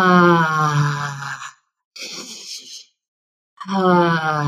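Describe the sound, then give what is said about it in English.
Breathing in through the nose and out through the mouth with a sound: a long voiced, humming exhale, a softer airy inhale, then another voiced exhale, with short silences between breaths. “in through the nose, out through the mouth with a sound.”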